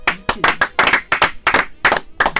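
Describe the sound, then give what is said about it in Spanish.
Sharp hand claps from a small group in a studio during a talk show: many loud, separate claps in uneven bursts with short gaps between them, crisp and dry rather than a smooth wash. “Un aplauso.”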